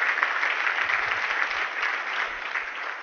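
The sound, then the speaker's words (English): Steady audience applause at the opening session of a leadership conference, honouring a staff member. Many hands clap at an even, moderate level throughout, without voices on top. “applause for Miss Jessica Swan”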